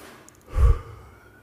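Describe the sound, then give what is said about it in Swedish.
A single audible breath out as Jesus breathes on his disciples. The soft, whooshing exhale swells to a brief peak midway and then fades, heard alone without speech. “Sen andades han på dem och sa:”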